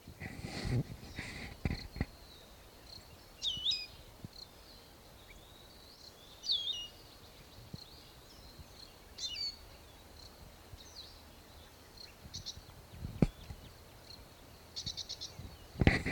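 Male bird calling from a lookout post: a few faint, high, brief chirps spaced several seconds apart, among scattered clicks and handling noises.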